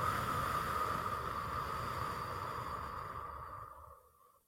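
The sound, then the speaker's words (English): A long, slow exhale during a guided breathing exercise, soft and breathy, steady at first and then fading to silence. “One more time, breathe in. Hold it. And breathe out.”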